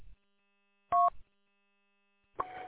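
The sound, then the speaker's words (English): Telephone call tones: a brief, clean two-tone beep sounds alone, followed after a silent gap by a second, rougher electronic tone burst that is still going at the end. “I got a phone call.”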